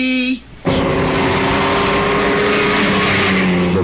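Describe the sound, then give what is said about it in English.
An Alfa Romeo racing car engine roars loud and sustained after a short, quiet gap. Its rough, buzzing drone holds fairly steady to the end, and a brief tonal sound comes just before it. “Of an Alfa Romeo, the name that became legend in racing.”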